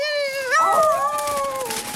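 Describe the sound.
A coyote yelps in pain after a porcupine quill stabs its thigh: a high, whining cry with strong harmonics that wavers, breaks upward, then slides lower and tapers off.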